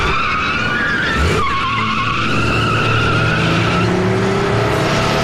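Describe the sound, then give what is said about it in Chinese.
Tires squeal and an engine roars as a car starts abruptly and speeds out of an underground garage. A loud, continuous skid runs throughout, with a sharp surge about a second in. “该名特别行动小组成员意会地猛然发动车子，抛下老黑，开出地下车库。”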